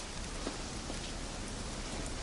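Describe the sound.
Rain falls at night as a soft, steady hiss of drops on surfaces, even and unbroken throughout, with no voices.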